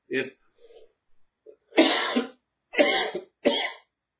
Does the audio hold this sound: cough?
yes

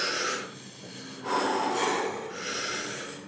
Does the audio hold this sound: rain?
no

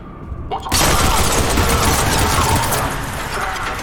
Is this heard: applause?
no

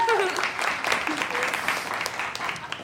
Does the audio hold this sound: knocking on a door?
no

